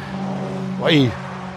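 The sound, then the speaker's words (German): Road traffic passes by, with one vehicle sweeping past and its engine pitch dropping as it goes. A steady low rumble continues underneath, and a person talks over it. “viel Verkehr hier gerade.”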